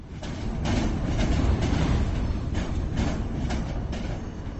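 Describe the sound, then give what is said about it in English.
A train rumbles through a major London railway station in a steady, loud, dense roar with faint rattling clicks layered over the deep rumble. “For rail passengers here at London's Waterloo Station, travelling by train is a greener alternative to driving.”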